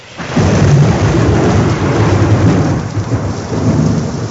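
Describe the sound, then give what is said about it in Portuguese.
Heavy rain with thunder in Rome: a dense, loud, continuous roar of downpour with deep rumbling underneath, steady throughout with slight swells, no voices. “A chuva fica ainda mais pesada em Roma.”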